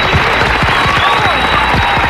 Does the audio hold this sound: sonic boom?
no

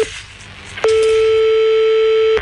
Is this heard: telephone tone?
yes

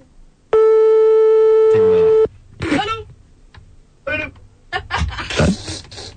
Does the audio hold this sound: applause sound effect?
no

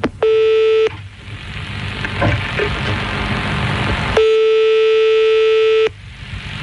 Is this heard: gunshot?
no

